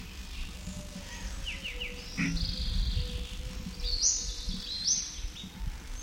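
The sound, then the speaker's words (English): Several birds calling: faint, high thin chirps and short whistled notes, some in quick runs, scattered over a constant low rumble and hiss. “Still several birds present. These notes are indistinguishable.”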